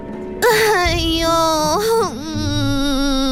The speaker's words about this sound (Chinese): 爱丽丝又呜呜咽咽地哭了起来